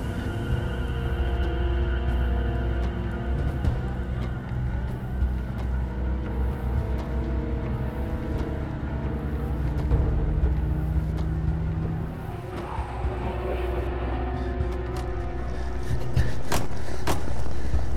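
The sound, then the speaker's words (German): Car driving off fast from a lakeside spot, its engine a continuous loud droning rumble with steady tonal hum throughout, swelling slightly louder toward the end. “Jetzt türmt der andere Wagen.”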